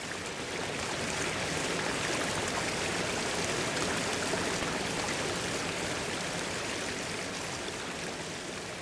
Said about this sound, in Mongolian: Ас өмнө муралж мушгирсан нарийн гол хөвөл дүүрэн догшин урсгалан хаялж алсыг зорин урсна.